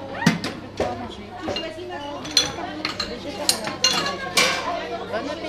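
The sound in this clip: Dishes, plates and cutlery clink during lunch service in a primary school canteen in Bondy near Paris as plates are filled for first-graders, with frequent sharp clinks over steady children's chatter and adult voices.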